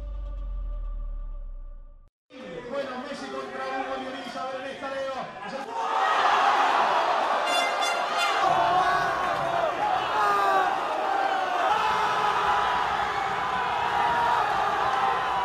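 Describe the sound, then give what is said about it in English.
Street partying crowds in Argentina celebrate the 2022 World Cup win with shouting, cheering and laughter that grow noticeably louder partway through and stay dense to the end. “Well, that's the sound of partying on the streets of Argentina in 2022, just after they won the World Cup.”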